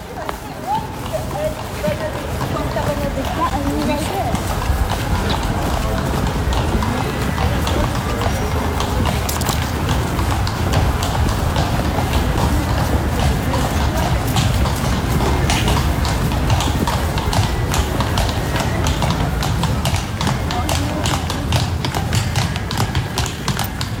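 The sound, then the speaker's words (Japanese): Horse hoofbeats from a horse-drawn carriage on the streets of Kraków: a continuous, brisk clip-clop of hooves on hard ground, mixed with street noise and people talking throughout. “聞いただいたのは馬の足音でした。”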